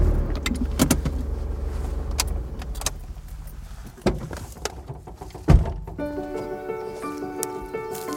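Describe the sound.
Car pulling over to stop on an estate drive among rhododendrons: a steady engine rumble with scattered clunks and one louder thunk, then a faint steady hum as it settles.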